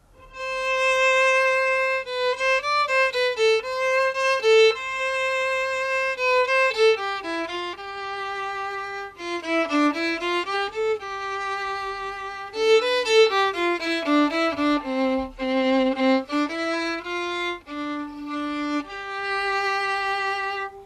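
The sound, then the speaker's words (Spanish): A solo violin plays the Bolero melody: a single singing line of long held notes and winding, ornamented turns, steady and moderately loud throughout. “Coge ir en el violín. La melodía suena así.”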